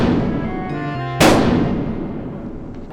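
A single gunshot, one sharp, loud crack with a long decaying tail, following a held tonal sound.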